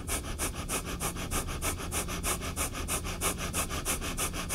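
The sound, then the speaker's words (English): Rapid rhythmic breathing in and out through the nose, a fast, even run of many sharp sniffing bursts repeating steadily throughout. “we're going to breathe in and out rapidly through our nose together”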